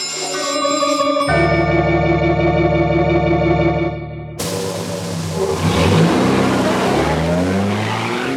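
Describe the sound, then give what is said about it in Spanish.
A covered truck and a car start off and drive away: engines rev and tires squeal in a sudden loud burst after a steady tonal drone, then the roar rises and falls. “El camión cubierto que lleva a los temibles samuráis y a su valioso cargamento áureo se pone en marcha. Y lo mismo hace el automóvil del doctor Quiro.”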